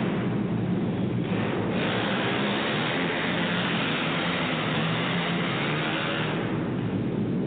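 Race car engines roar as the field takes the green flag at the end of the first lap, a dense, loud wash of noise that holds steady throughout with no voices.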